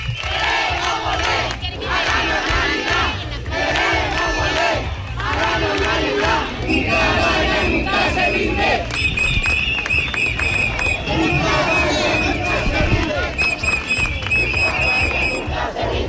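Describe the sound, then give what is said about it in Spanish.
A crowd on a protest march chants in unison against plans to turn an old flour factory near their neighbourhoods into an asylum facility. Loud, rhythmic group chanting and shouting continue throughout. “Estos son algunos de los cánticos que se escuchan durante todo el recorrido.”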